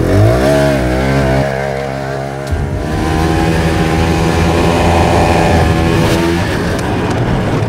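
A snowmobile engine revs hard before a motocross jump, its loud buzzing roar climbing in pitch at first, then holding high and steady with a brief dip midway, with no voices heard.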